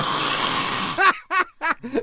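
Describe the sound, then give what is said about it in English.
A person imitates snoring with the voice, as if asleep with the head back, mouth open and uvula vibrating. A drawn-out breathy rasp is followed by four short, rhythmic, buzzy snorts. “And the snoring, the uvula starts to vibrate, and the next thing you know, it's...”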